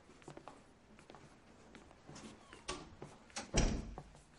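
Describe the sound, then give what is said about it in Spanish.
A door is opened: a few faint clicks and light rattles come first, then a louder thud and a short scrape toward the end, against quiet background noise. “abre la puerta”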